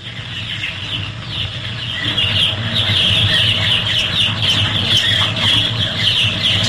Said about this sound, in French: Ça, c'est dans un poulailler, ça. Ouais, non, mais c'est quoi, exactement? Bah, c'est des poussins, ça. Ouais, c'est des poussins.